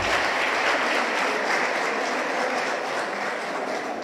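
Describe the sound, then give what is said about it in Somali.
Applause for two couples, a dense, even wash of clapping that holds at a steady level throughout with no voices. “sacabka u tumaa labadii lamaane.”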